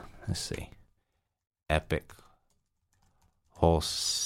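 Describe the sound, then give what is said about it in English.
Typing on a computer keyboard as a web address is entered: a few bursts of clicking keys separated by quiet gaps, with some talking. “And actually, I'll just go there right now. I'll type in,”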